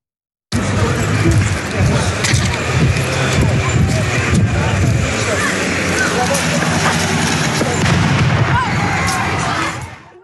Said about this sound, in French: on entend le bruit de cette grenade. C'est une grenade lacrymogène, assourdissante.